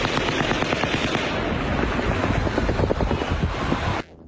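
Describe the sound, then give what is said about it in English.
Fully automatic weapons fire during a casino shooting, a dense and unbroken stream of rapid shots that goes on for about four seconds, then stops abruptly. “It sounds like it's confirmed there are at least two shooters with fully automatic weapons.”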